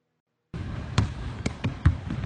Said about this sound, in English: Boom! Half-court shot by this guy 7 years ago on his final night at the Suns.